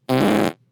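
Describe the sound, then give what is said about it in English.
A single short burp sounds out, loud and buzzy with a rasping texture. It lasts under half a second and then stops abruptly. “That was a burp in my throat.”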